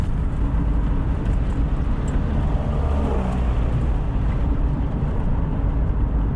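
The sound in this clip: Steady road noise of a car driving toward the town of Progreso in western Honduras, a continuous low rumble of engine and tires that holds an even level throughout with no voices.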